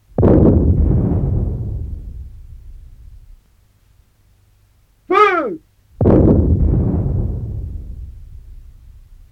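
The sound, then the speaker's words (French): Two heavy cannon blasts from an artillery battery in a bombardment, each a deep boom with a long, rumbling decay. A man shouts a short command in the gap between them. “Eh bien, puisqu'ils refusent de nous attaquer, rien ne nous empêche de les bombarder. Sergent, commandez les feux de batterie sud. Canonnier, à mon commandement. Feu!”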